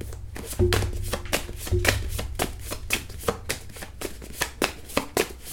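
Tarot cards being shuffled and drawn from a deck: many rapid, crisp papery flicks and taps in an irregular run over a steady low hum, with no talking.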